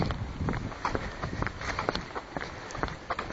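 Footsteps walking down an alley off a main road: a faint, steady series of many light steps at an even pace.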